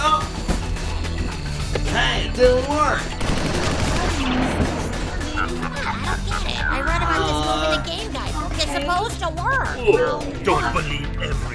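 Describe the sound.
Phaser weapon fire crackles out in rapid, rattling bursts, a lively volley of zapping shots, while people talk over it throughout.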